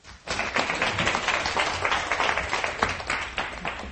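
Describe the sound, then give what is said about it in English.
A church audience applauds to welcome the pastor at a worship service after the hymn Amazing Grace. Dense, textured clapping starts abruptly and continues steadily to the end. “Let's give Pastor Jimmy a welcome hand.”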